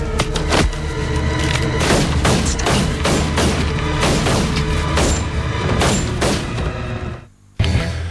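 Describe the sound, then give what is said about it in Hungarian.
Many gunshots crack out in a dense, loud volley of sharp impacts over a continuous rumbling background. The shots stop briefly near the end before one last burst. “Eldördült néhány lövés”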